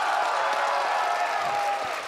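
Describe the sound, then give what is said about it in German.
Applause at party headquarters for the winners of a months-long membership vote: steady, dense clapping mixed with crowd noise that continues without a break throughout. “da hören Sie den Applaus im Willy-Brandt-Haus für die Sieger dieses monatelangen Votums”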